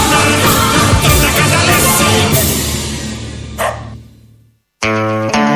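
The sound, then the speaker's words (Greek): A small dog gives a short, sharp bark burst at the very end, after a loud, dense wash of sound fades out into a moment of silence. “Και ένα σκυλάκι στο τέλος να επικρότει εδώ Ελληνοφρένεια”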